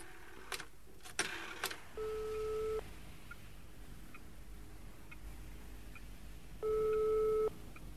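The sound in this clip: Ringback tone of an outgoing telephone call on speakerphone: two long, steady tone bursts separated by a pause of several seconds. A few short clicks come before the first tone.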